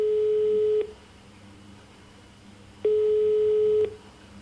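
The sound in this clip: A telephone ringback tone sounds while calling a friend: two steady, mid-pitched beeps about a second long, separated by a two-second pause, over faint background hiss.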